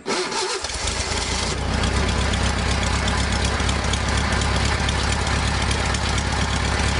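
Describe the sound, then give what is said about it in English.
A classic Volkswagen Bug engine idles with a steady, loud, low rumble and a dense mechanical chatter that runs unbroken through the whole clip, with no voices over it. “we were talking about the sound of those classic VW Bugs before they remade it into the Beetle. Yeah. This is it.”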